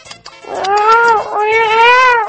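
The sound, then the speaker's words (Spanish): A cat meowing twice in long, drawn-out, loud calls with a nasal, wavering tone, the second slightly longer than the first, after a few faint clicks. “¡Mira cómo maulla ese gato!”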